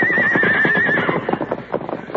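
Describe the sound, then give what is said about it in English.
A horse gives one loud, wavering whinny as the team is unhitched and driven off, then hooves clop unevenly as the horses move away. “Meanwhile, Dirk finished unhitching the horses. Get going. You two get along there.”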